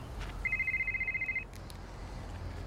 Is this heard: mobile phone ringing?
yes